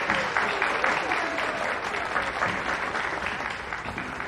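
Crowd applause in a hall, dense continuous clapping at even loudness throughout, with no voices standing out.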